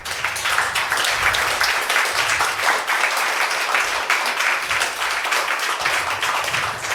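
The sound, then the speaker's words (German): Applause for a speaker after a conference talk, a sustained and dense wash of clapping that holds at an even loudness for the whole stretch. “Nochmal einen fetten Applaus.”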